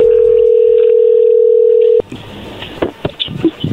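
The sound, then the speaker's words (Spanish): Telephone line during a call being placed: a loud, steady dial tone holds for about two seconds, then cuts off into a few short clicks and dialing tones. “A ver, ahí se está marcando, no haga ruido, por favor.”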